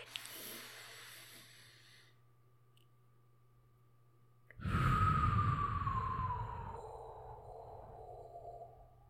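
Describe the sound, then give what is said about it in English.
A slow exhale through the mouth after holding a breath, releasing jaw tension in a relaxation exercise. A quiet stretch gives way to a sudden long breathy rush with a faint whistling tone that drifts lower as it fades. “Hold for a couple seconds, and then we will slowly exhale and release all the tension in our mouth and go back to a normal state.”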